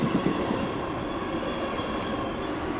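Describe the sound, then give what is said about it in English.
Heavy rail maintenance machine pulling wooden ties out from under the rails, making a loud, steady mechanical rumble and grinding with a metallic rail-like edge that holds level throughout, with no talk. “they got this massive machine that's got to pull this wood from underneath the rails.”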